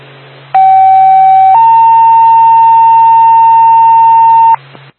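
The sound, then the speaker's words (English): Radio dispatch alert tone for Blue Mountain Ambulance, the second tone of the page: a loud, pure steady tone held about a second, then stepping up to a slightly higher tone sustained for about three seconds before cutting off. “10-5, do you want additional checks? Blue Mountain Ambulance, second tone.”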